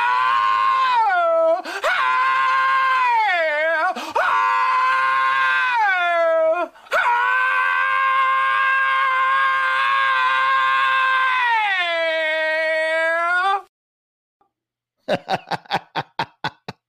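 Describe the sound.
Voice imitating an extreme crooner-style purr: a loud, sustained, buzzing vocal growl with sliding, wavering pitch and brief breaks, cutting off near the end, followed by a few sharp clicks.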